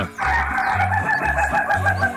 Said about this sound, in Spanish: El único gallo que no quiquiriquea, no cacarajea, sino que se ríe.